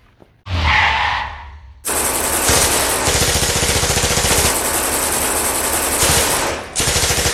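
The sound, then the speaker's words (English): Tommy gun fire in a shootout from an alley: loud, sustained rapid-fire bursts that run almost continuously after a brief rushing noise at the start. “What the hell? It came in the kitchen. Sounds like it's coming from the alley. Those are Tommy guns!”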